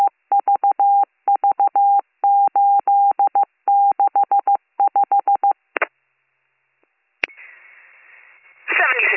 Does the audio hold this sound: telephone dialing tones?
yes